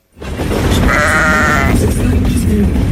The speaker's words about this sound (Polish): W Pendolino jadącym z Krakowa do Warszawy jeden z posłów PiS nagrał owcę. Chodziła sobie po pociągu ubrana w pieluchę.